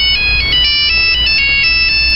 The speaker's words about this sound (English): This isn't good. Cell phone. Is that a Nokia?